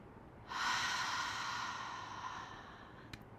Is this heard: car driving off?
no